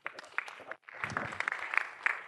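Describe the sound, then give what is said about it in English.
Scattered audience clapping at a talk: a few sharp individual claps, a brief silence, then a fuller stretch of quiet clapping with a short low voice sound underneath. “Please clap for him.”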